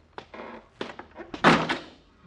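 A basement door slams shut and latches with one heavy thud, surrounded by a few lighter knocks and rattles.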